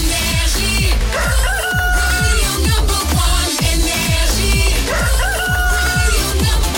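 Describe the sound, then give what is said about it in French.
Rooster crowing, its drawn-out calls set against steady rhythmic music that plays loudly throughout. “qu'on prépare le coq et qu'on le fasse chanter”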